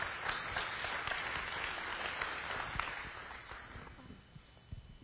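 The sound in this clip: Congregation applause at a morning church service, welcoming two speakers as they come up to share. Clapping stays steady and moderately loud, then thins into a few scattered claps near the end.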